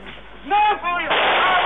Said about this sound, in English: Just shooting guns into the air. Good party.